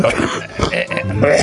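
A few rough coughs and throat-clearing bursts come in quick succession, loud and close, spread over about a second and a half.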